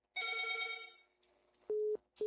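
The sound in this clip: A telephone rings with an incoming call at a radio station: a quiet, buzzy tone sounds first, then fades, and two short, steady, pure beeps follow with a brief gap between them.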